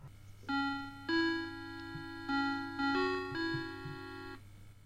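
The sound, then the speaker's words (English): A Vectrex game console with a hacked BIOS plays its startup jingle: several bright, sustained electronic beeping notes in a short melodic phrase. A faint steady low hum runs beneath it. “So when I turn my Vectrex on now, instead of saying Vectrex, it says Victrex on the screen. And it's got 10 pence podcast underneath it, and it makes this noise.”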